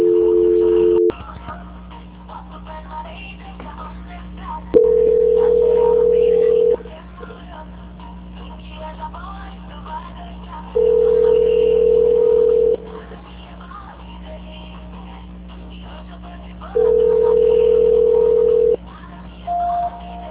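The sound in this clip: A telephone call-transfer tone sounds as four long, steady beeps repeating about every six seconds, with a shorter beep at the end, over a quiet hissing line.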